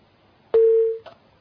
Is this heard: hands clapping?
no